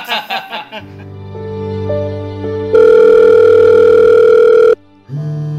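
A telephone ringing tone on a call that is cut off partway through a ring: one loud, steady tone stops abruptly, with softer tones before it and a brief tone after.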